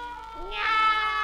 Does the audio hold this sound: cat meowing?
yes